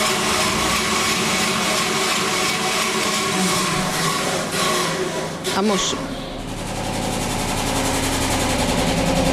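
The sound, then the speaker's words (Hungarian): An early washing machine and a spin dryer are demonstrated with a continuous mechanical motor drone under a person talking, and the hum changes character partway through. “A minnyájunk által ismert centrifuga. Most kétféle eszköz működését is kipróbáltuk az előbb. Igen, az első volt a mosógép, amit említettem,”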